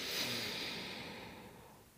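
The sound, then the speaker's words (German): A deep inhale through the nose during a guided breathing exercise: a soft, airy rush that swells early, then slowly fades over about two seconds, with no talking. “Tief einatmen durch die Nase”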